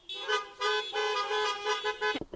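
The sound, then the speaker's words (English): Car horns honk in a greeting for Father's Day. Several bright, overlapping toots sound in quick succession with no talk, then a short burst of clattering noise at the end. “One more time, let's honk to say Happy Father's Day.”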